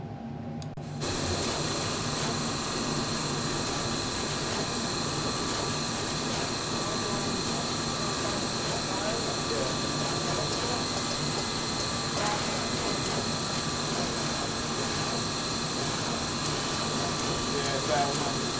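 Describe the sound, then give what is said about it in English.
Manufacturing machines run at the Adafruit electronics factory, starting abruptly after a second. A dense, steady mechanical whir and hum follows and continues unbroken at an even, loud level. “I'll say it was not great in the beginning when we had to have all the machines off because we weren't manufacturing, but the machines are back.”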